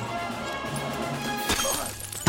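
A glass rum bottle smashed over a crewman's head on a dockside beside a pirate ship: a sharp shattering crash rises out of a steady background hum, followed by a second, smaller impact near the end.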